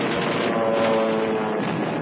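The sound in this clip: Droning aircraft engines during a torpedo attack on the German battleship Bismarck, a loud, steady, rough roar that holds without a break.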